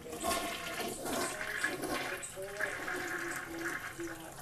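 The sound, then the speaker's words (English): A toilet flushing, an unusually long-flushing one, gives a quiet, steady rush and gurgle of water that runs throughout, with a voice talking faintly over it. “My toilet needs to be flushed.”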